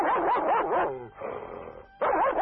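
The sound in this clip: A Tibetan mastiff kept as a village guard dog barks in a quick run of loud, wavering barks, drops to a softer whining stretch, then breaks into loud barking again.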